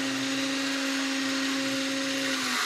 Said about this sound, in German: wenn das Holz jetzt gut und fest in der Maschine eingespannt ist, kann man das Gerät einschalten. Und mit dem Messer